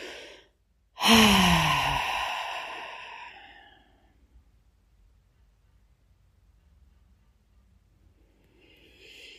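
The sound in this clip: A deep breath blown out through the mouth during a guided relaxation exercise: one long, airy exhale that starts strong and slowly fades over a couple of seconds, followed by near silence.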